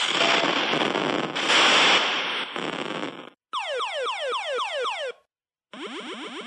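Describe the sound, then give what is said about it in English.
Missile Command arcade game sound effects: about three seconds of loud, harsh noisy explosion blasts, then a rapid series of many sharply descending electronic chirps for the missiles, a short silence, and another burst of falling chirps. “here is the legit Missile Command that you played in a real arcade”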